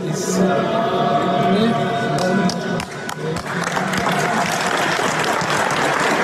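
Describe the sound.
Applause fills a church as Montenegrin party leader Zdravko Krivokapić greets Metropolitan Amfilohije, a dense, steady clapping from a crowd that runs throughout with busy crowd noise beneath.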